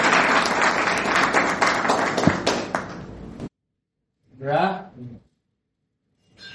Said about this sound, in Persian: خب درخواست میکنم خودتون تشویق کنید بریم سراغ کارگاه.